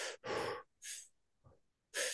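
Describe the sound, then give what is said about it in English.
Fast, paced breaths during a breathwork exercise: a few sharp, airy inhales and exhales in a quick rhythm, separated by short silent pauses, with no talking. “We can still have a bit of pace in there. We can still have we've got room for movement, so I can go a little bit faster.”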